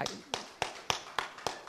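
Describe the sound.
Slow, deliberate applause during a heated public debate: several sharp, evenly spaced claps at a measured pace, each a crisp isolated hit with short quiet gaps between.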